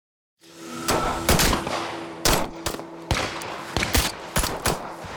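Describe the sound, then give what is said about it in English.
Gunfire at a secure military shooting range outside Moscow, with light snow on the ground: many sharp, loud shots fire in irregular bursts over a steady low hum. “Welcome to Soviet Spy School. Location, a highly secure military shooting range just outside Moscow.”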